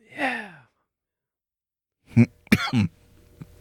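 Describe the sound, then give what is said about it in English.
A cough sequence begins with a long sigh, followed after a pause by three short, sharp coughs in quick succession. “yeah, keep coughing”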